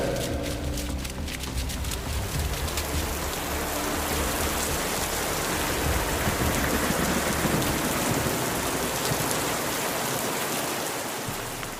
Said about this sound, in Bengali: বৃষ্টি আরো জোর আকাশ ফাটিয়ে নামল